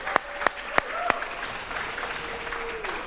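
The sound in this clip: Applause from a church audience for mothers on Mother's Day: a steady wash of crowd clapping, with a few sharp, louder claps standing out early on.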